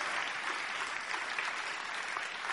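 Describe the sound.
Steady applause from an audience welcoming a speaker at a church community gathering, an even, sustained wash of many hands clapping at moderate volume.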